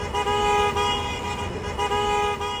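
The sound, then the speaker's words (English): Car horns honking at protesters as vehicles pass a park on a chilly November day: loud, sustained overlapping horn tones with slight dips, over a low traffic rumble. “That was the sound of cars honking at protesters as they passed by Memorial Park”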